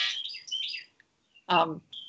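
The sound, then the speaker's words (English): A home clothes dryer's buzzer goes off as a run of high, warbling electronic chirps, followed by a short burst of voice and one brief final tone. “I'm at home and the buzzer to my dryer just went off.”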